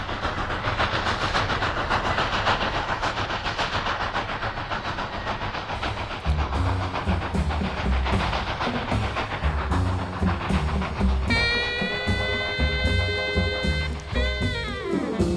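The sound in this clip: A train passes on rails with a continuous rumbling clatter and hiss. Near the end, a high, steady, whistle-like tone sounds for a few seconds.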